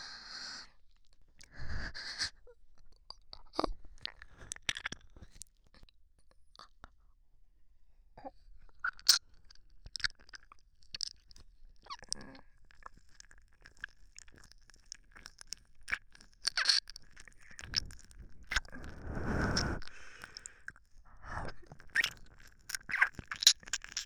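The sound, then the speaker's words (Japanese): Wet licking mouth sounds made up of many irregular soft smacks, clicks and moist swishes, very quiet overall, with uneven pauses between them and no talk. “はい、舐めさせていただきます。”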